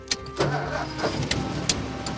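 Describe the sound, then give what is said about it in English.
A large black car with rounded fenders starts as a key turns in the ignition. Short mechanical clicks give way to a low, steady engine rumble, briefly and moderately loud. “she turns the key in the ignition with a white-gloved hand, then shifts the car into gear.”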